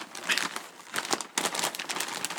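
Something is torn open, producing loud, irregular bursts of crinkling and ripping packaging, separated by brief pauses, with no talking.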